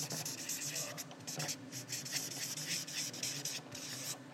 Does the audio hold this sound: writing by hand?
yes